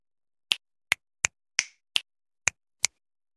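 Seven crisp finger snaps in a loose, uneven rhythm, each a sharp bright click with a quick decay and silence in between.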